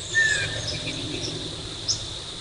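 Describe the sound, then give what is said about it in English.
Northern waterthrush chip calls, a few sharp, very brief high notes standing out over a steady insect drone. “It's a northern water thrush.”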